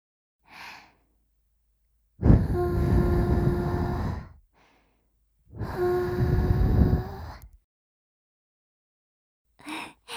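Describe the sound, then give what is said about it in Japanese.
Gentle breath is blown into the ear to end an ASMR ear-cleaning session. Two long, soft, airy whooshes each last about two seconds, with faint short breaths before and after. “それじゃあ最後に耳をふーっとしますね。いきますよ。”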